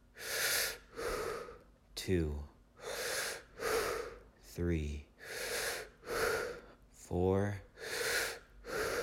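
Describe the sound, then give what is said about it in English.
Sharp, quick inhales paired with relaxed, breathy exhales during a guided breathing exercise, repeating steadily as a long series of airy rushes, with a voice briefly heard between some breaths. “you're going to take 5 breaths with a quick inhale and a relaxed exhale”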